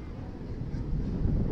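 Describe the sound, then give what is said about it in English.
Wind howling and swirling across a Double-A baseball stadium, blowing in from left field: a steady, low, rumbling roar of gusts that builds slightly toward the end, with no voices. “You hear that wind howling, swirling around. Blowing in from left field.”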